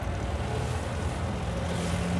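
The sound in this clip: Engine and road noise from a 1996 Geo Tracker with a rattling fault as it drives along a river road: a continuous, even rumble at steady loudness for the whole stretch.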